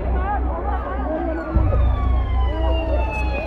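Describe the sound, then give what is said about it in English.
An emergency siren wails through the aftermath of a stampede in Mina near Mecca, rising and falling in faint sweeps over a heavy low rumble and mixed crowd voices. “Medics and ambulances arrive, but too late.”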